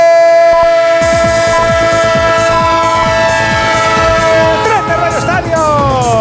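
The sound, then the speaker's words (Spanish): A train sound effect of loud, steady horn-like tones sounding together over a fast, rhythmic wheel clatter that keeps going to the end. “el tren de Onda Cero, claro que sí, el tren del fútbol, el tren del deporte”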